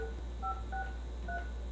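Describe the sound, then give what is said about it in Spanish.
A phone number is dialled on a keypad: four faint, short touch-tone beeps, spaced apart, over a steady low hum. “chancita para marcarle al Junior”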